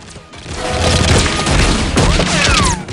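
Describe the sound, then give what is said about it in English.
Gunfire exchanged between guards and commandos at an aircraft: a loud, dense burst of overlapping shots and impacts that swells, holds for a couple of seconds, then stops abruptly. “Two guards appear and open fire. The commandos return fire, and one of them hurries up the steps towards the cockpit.”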